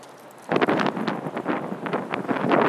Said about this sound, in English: That is a very wind, very high wind.